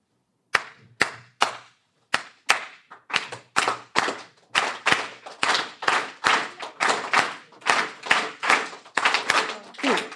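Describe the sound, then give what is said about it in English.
Hand claps beat out the clave rhythm of Cuban music: many sharp, crisp claps repeating the same syncopated pattern at a steady tempo, with no instruments. “It has this beautiful thing called clave.”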